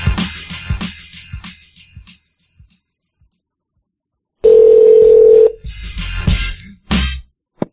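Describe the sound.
Telephone call being placed: a loud, steady single-pitched line tone holds for about a second, with brief talk and rustling before and after it.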